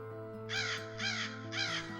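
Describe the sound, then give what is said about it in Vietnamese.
A crow caws from a treetop: three harsh, evenly spaced caws, each about a quarter second long, over a steady low hum. “Bỗng trên một ngọn cây gần đó có tiếng quạ ré lên, làm cho Đương giật mình.”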